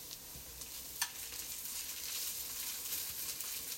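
Food sizzles steadily as it cooks down in a pan: a continuous bright frying hiss with one brief click partway through and no talking.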